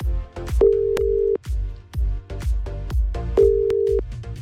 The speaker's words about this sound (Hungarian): Én pedig akcióba rendülök, rácsörgök a címzetre és átadom neki a te üzeneted.